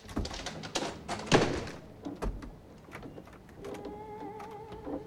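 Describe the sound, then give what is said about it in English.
A door handle rattles in a quick burst of clattering knocks and thunks, then the sound drops to quieter, scattered taps. “She stares in horror as the door handle begins to rattle.”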